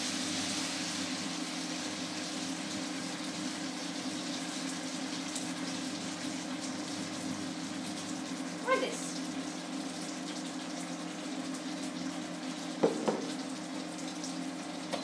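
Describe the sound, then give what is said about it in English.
An entire jar of sauce goes into chicken cooking in a pan, giving a steady, faint, watery sizzle that runs throughout, broken by a couple of brief, sharper bursts. “Actually, I think this chicken has had its time. So, taking the lid off and adding the entire entire jar.”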